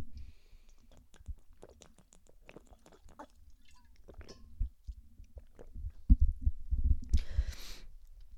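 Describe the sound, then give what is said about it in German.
A person takes a sip of a drink, with quiet mouth clicks, soft lip sounds and a few gulping swallows that grow louder toward the end. “Ich trinke mal kurz einen Schluck.”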